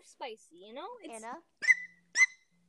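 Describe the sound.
Two short, sharp barks follow a stretch of talk, quiet and clipped, with a brief pause between them.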